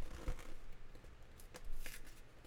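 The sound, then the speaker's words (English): A FedEx envelope's tab is pulled to open it, giving faint, short papery tearing rasps, a few scratchy bursts against a quiet background. “This looks like to be one of those FedEx envelopes where when you pull the tab, it doesn't open all the way.”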